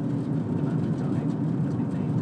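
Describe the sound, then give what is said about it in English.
A car drives along a rural road in County Limerick, Ireland, with a steady low engine and tyre rumble that holds at an even, moderate level throughout. “Around this corner comes another couple of cars against me, one with its headlights on, one without its headlights on.”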